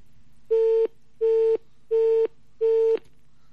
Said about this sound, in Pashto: خو وختي هم داسې کال کټ شو بیا کال کټ شو